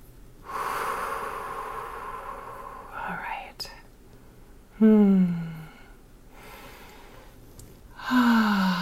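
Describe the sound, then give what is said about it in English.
Slow, deep breathing, in through the nose and out through the mouth: long airy rushes of breath. Some breaths end in a low, voiced sigh-like tone. “nice deep breath in through your nose and out through your mouth.”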